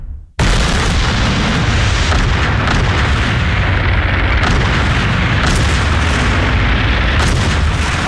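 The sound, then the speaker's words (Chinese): Armor-piercing artillery fire and explosions in a tank battle between German Tiger tanks and Soviet T-34s. A loud, dense barrage of booms starts abruptly after a moment of quiet and keeps rumbling, with a few sharper blasts standing out. “德军以虎式坦克率先开路，迅速突破苏军防线，但是很快就遭到苏军猛烈的穿甲炮火和无数坦克的阻击。”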